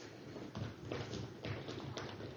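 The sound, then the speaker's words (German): A group of people stamp their feet together on request, making a steady rumbling mass of dull thuds. A few heavier stomps stand out at irregular points, all at a fairly low level. “Jeder, der zwei Vornamen hat, soll mal stampfen.”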